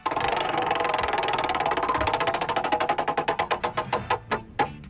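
A prize wheel spins with a fast, steady rattle of clicks that gradually slows and spreads out, the last few ticks coming far apart as the wheel comes to rest.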